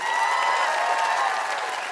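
Dense, steady applause from a game show audience welcoming a guest, a constant wash of many hands clapping at an even loudness from start to finish.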